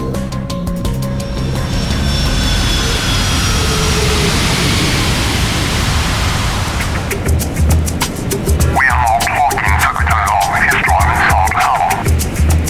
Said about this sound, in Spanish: Toma un avión a Inglaterra.